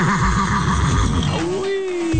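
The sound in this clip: A horse's whinny, a wavering, tremulous neigh lasting about a second over a continuous background, then trailing into a steadier sustained tone.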